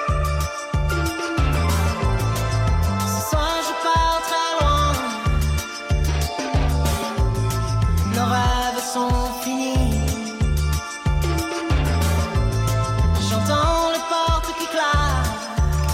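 French chanson-style pop music with a steady beat of punchy bass pulses under bright, layered instruments, playing continuously at an even, loud level.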